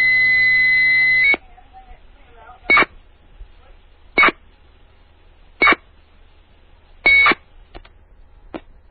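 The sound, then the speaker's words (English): Phone line tones from a computer dialing into a payphone through a terminal program: a long, steady electronic tone opens, then four short, even tone bursts at regular gaps, followed by two faint brief blips. “I dialed up into this phone using Hyper Terminal. There it is.”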